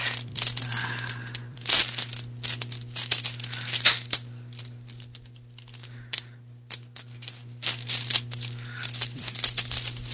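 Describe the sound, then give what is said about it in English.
Dice clatter and click as a hand rummages through a bag full of them. Irregular bursts of rattling are broken by short quiet gaps over a low, steady hum. “So many dice in this bag, it's hard to pick out the eights.”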